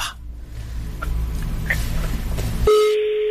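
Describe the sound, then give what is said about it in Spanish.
A phone number is dialed on a telephone: a few short, faint keypad beeps sound over a low background rumble, and then a loud, steady line tone begins and holds to the end. “Que estoy marcando el número que traigo de cosas del Metrobús de la empresa.”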